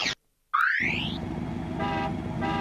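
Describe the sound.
A cartoon toy-car sound effect: a short burst, a brief silence, then a quick rising whistle-like glide into a steady buzzing motor hum broken by two short horn-like toots.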